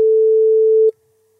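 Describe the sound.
A telephone ringing tone sounds as a call is being placed: one steady, mid-pitched electronic tone that holds for just under a second and then cuts off abruptly into near silence.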